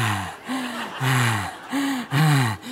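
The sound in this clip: A voice imitates heavy, sexy breathing in a series of several breathy, voiced gasps and exhales. Each lasts under half a second and comes in an uneven rhythm, with no spoken words.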